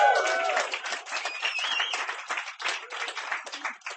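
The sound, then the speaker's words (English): An audience applauds a performer at a reading event with dense, fairly loud clapping. It holds steady with slight dips and swells throughout. “That is Boris. Ladies and gentlemen, give him a hand.”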